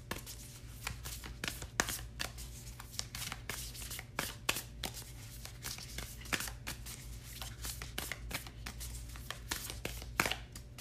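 Oracle cards are shuffled before a card is drawn, making a faint, continuous papery rustle with many quick soft flicks and a few sharper snaps over a low steady hum.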